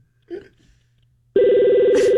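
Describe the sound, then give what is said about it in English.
A telephone rings once over a call line, a loud, steady buzzing tone lasting just under a second, preceded by a brief faint noise and near silence. “Nice ring. What kind of phone is this?”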